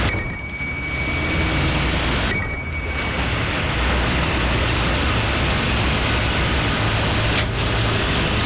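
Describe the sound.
A doorbell rings at a house, two brief high bell-like rings early on, nearly buried under a loud, steady hiss that runs throughout.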